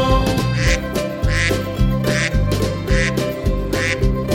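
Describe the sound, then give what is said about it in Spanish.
Duck quacks repeat in a steady beat over a lively, loud children's farm-song backing of music, each quack a short bright burst riding on top of the instrumental track. “Y en esa granja tenía un pato, ia, ia, yo. Con un cuac, cuac aquí, cuac, cuac allá”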